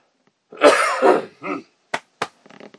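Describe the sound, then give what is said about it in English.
A person clears phlegm from their throat with a harsh, rasping hawk, then a shorter grunt, two sharp clicks and a brief rattling flutter, all without speech. “I think I finally got that phlegm cleared from my throat. Sorry about that.”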